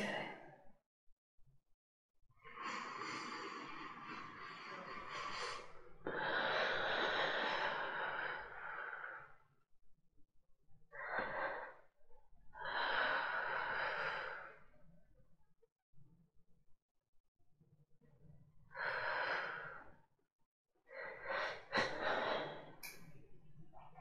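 Slow, deep breaths from a person during a hypnosis session: several long, airy inhales and exhales separated by quiet pauses, soft and faint with no talking.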